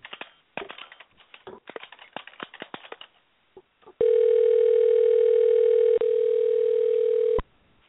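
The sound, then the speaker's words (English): A telephone dial tone during an attempt to call someone: a rapid, irregular series of sharp clicks, like keys being pressed, gives way to a loud, steady, unbroken tone that briefly dips once and then cuts off abruptly. “So let me dial in Devon Alexander, and let's talk to him about his fight.”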